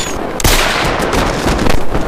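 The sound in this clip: Gunshots ring out during a police confrontation with thieves: one sharp, loud crack opens a dense, noisy stretch with further bursts of gunfire.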